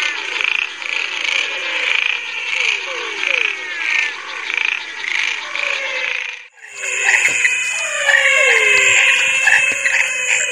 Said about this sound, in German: Ja, dieses Froschkonzert, was wir gerade kurz eingespielt haben, ist schon einige Jahre alt und es ist schon eine schöne Erinnerung, all diese viele Arten auf einen Schlag zu hören.